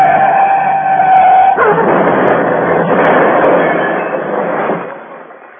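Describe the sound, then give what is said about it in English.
Daimler car driven fast at night downhill on a slippery road full of sharp curves. A loud tonal engine whine gives way to a harsh, broad rushing roar that fades away near the end. “I drove that Daimler for all she was worth. It was risky driving with my right arm out of action. But I drove on south, downhill into the valley. The road was full of sharp curves and shiny under my headlights and very slippery.”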